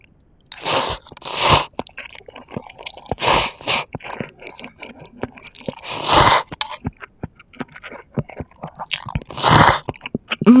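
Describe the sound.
Food is crunched and chewed in loud, crisp bites, with several strong crunching bursts separated by quieter clicking and chewing.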